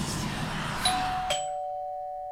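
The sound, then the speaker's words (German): A house doorbell rings faintly on a Saturday morning, giving two chime tones in quick succession that ring out and fade slowly. “An einem Samstagvormittag klingelt es, ist ein älterer Herr draußen. Ich gehe an die Tür”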